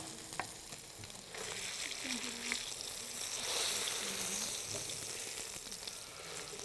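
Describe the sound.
Meat searing in hot oil with spices gives a faint, steady sizzle and hiss, with a few small clicks from stirring throughout.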